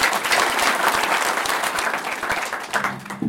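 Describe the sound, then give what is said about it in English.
Warm audience applause welcomes a guest speaker, a dense, steady wash of many hands clapping that stays loud throughout and thins slightly near the end. “Please join me in giving a warm hand of welcome to Mr. Bill Porter, also known as Red Pine in Chinese.”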